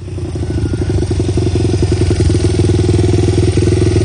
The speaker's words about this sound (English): This your dirt bike?